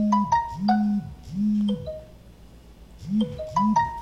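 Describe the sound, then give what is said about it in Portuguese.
A phone rings with an incoming call, its electronic ringtone playing a melodic pattern of bright tonal notes in a few repeating bursts separated by short gaps. “Alguém resolveu me ligar justamente na hora da live, mas está tudo bem.”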